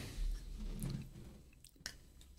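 Someone chews green-coloured food, faint, soft and moist, with squishy mouth sounds and a few small crisp bites, alone without talk.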